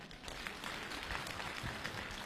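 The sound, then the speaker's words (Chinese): Audience applause at a live crosstalk comedy show: faint, steady clapping from many hands that continues evenly throughout. “大家，鼓掌再热烈一点好不好？”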